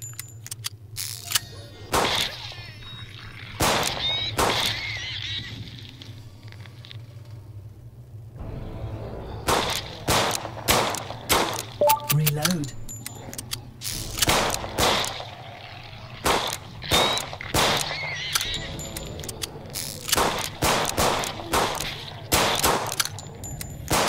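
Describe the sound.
Sharp electric zaps from a Tesla coil weapon firing in a video game ring out in many rapid bursts, each a crisp cracking snap, with a brief lull in the middle before the volley resumes.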